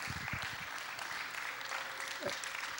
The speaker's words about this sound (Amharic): እስኪ እልልታ ጭብጨባ ለጌታ እናሰማ።